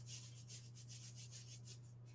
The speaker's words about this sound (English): I'm just gonna sprinkle some coconut oil over top of these. rub it in a little bit, and then sprinkle some salt on top.